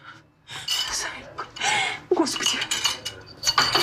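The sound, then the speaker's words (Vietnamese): Dishes and cutlery clatter loudly as a bowl of soup is spilled, with several rattling, clinking bursts of varying strength following one another over a few seconds. “Mẹ ơi, súp của con bị đổ rồi.”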